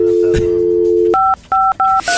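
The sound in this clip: A steady telephone dial tone, then four short two-note keypad beeps as a phone dials a number seemingly on its own, the beeps separated by brief gaps.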